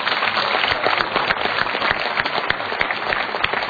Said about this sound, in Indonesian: Dan kita sekali lagi berikan tepuk tangan pada legenda-legenda Indonesia.